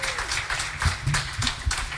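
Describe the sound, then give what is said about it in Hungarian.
A concert audience claps loudly and densely between songs. The applause runs throughout with a fluttering rhythm and heavy low thumps. “most lehet tapsolni, köszönjük szépen!”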